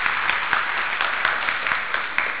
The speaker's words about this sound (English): For those, give them a big round of applause.